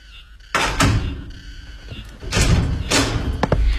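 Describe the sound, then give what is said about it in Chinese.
An apartment door being opened for a visitor: a few solid clunks and thuds with rattling in between, fairly loud against a quiet background. “我给你开门啊”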